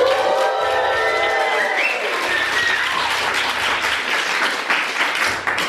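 Loud, continuous applause and cheering from a live audience at a financial independence event, sustained for the whole stretch, with shrill whistles and whoops rising above the clapping in the first part.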